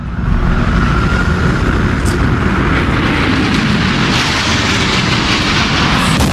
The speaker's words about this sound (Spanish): Así sonaba el impacto de ese avión contra la segunda torre.